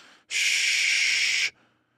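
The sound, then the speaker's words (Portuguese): A forceful exhale during a breathing exercise: one strong, airy hiss of breath that lasts just over a second, rising abruptly out of near silence and cutting off sharply. “ele tá botando a respiração para fora. Entendeu? Então ele faz. Aí ele bota tipo 70%, 80% fora. E a inspiração ela vem naturalmente. eu faço.”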